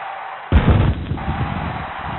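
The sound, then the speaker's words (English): A cannon fires once. A sudden deep boom gives way to a rough, rumbling tail that lasts over a second. “Did you just shoot yourself out of a cannon?”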